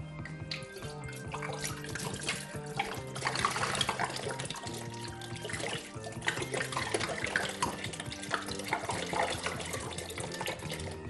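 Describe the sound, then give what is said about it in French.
Water poured into a basin, about three litres, over peels and pips set to soak overnight. A steady, faint, continuous running and trickling sound with no pauses. “Et je rajoute de l'eau.”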